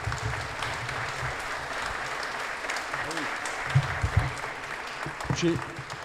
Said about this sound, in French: Merci, merci Monsieur Piedbeuf, qu'on peut applaudir.